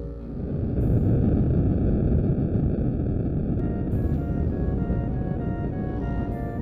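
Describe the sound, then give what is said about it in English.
Rocket blastoff after a countdown: a loud, broad, roaring rumble surges up within the first second and holds steady and powerful for about six seconds. “Countdown for blastoff. X-minus 5, 4, 3, 2, X-minus 1, fire!”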